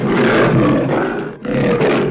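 A lion roars, one long, rough, rumbling roar that breaks off briefly and then surges again in a second loud burst.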